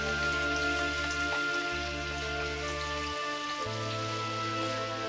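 Steady hiss of falling rain pattering on a surface, continuous and even, alongside sustained low musical tones that shift a few times.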